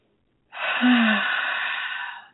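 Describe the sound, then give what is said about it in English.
A single long, deep breath taken as part of a breathing exercise: a steady, airy hiss that holds for about two seconds and then fades, with a brief low tone near its start. “I like doing a breathing exercise.”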